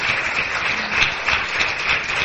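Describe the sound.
A church audience applauds in praise during a service: a continuous, even wash of many hands clapping at moderate loudness, sustained through the whole clip without breaks.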